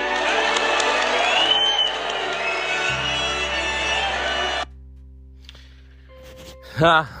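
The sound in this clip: A crowd cheers and whoops to welcome Dick Cheney as running mate, a loud dense roar that holds steady and then cuts off abruptly, leaving near quiet with a brief voice at the end.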